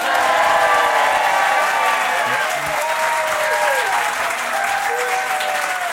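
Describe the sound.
Audience applause greets a duo of contestants on a French game show, a loud, dense and steady clapping from a crowd that holds for the whole stretch without fading.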